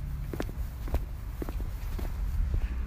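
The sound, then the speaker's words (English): Footsteps walk outdoors along a street with parked cars, a steady series of soft, evenly spaced steps over a continuous low background rumble. “Yes, you can hear my footsteps.”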